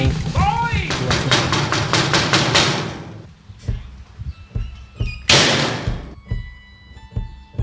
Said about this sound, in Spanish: ¡Ya están llamando a la puerta! ¡Otra vez llaman a la puerta!